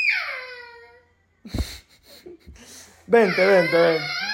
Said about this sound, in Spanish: Hijo, no te pongas a llorar, estoy en medio del podcast.